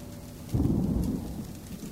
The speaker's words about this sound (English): Thunder jolts me awake.